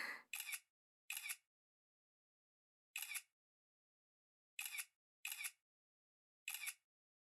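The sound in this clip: A camera shutter fires seven times during a portrait photo shoot, each a crisp, sharp mechanical click, spaced irregularly with quiet pauses between shots.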